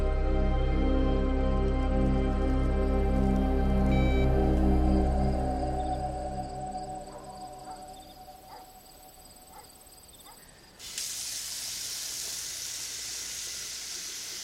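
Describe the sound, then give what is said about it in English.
Water runs into a kitchen sink with a continuous hiss. A low hum under it fades over the first half, and the noise turns brighter and harsher near the end. “In the kitchen, Jane stares at the sink as it fills.”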